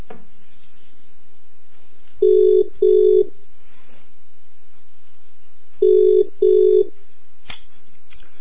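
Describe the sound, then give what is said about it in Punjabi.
A telephone call ringing through a handset: a steady low tone with two double-pulse rings, separated by a pause and standing alone without talk. “Telephone ਲੱਭ ਗਿਆ ਮੈਨੂੰ, ਕਾਲ, ਮੈਂ ਤੁਹਾਨੂੰ ਕਾਲ ਕਰ ਦਿੱਤੀ sir.”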